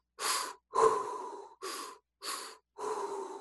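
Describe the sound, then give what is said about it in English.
Deep, forceful breathing during breath work: five loud, airy breaths in quick succession with short gaps between them. The second breath is the longest. “I'll bring in the breath, belly, chest, exhale.”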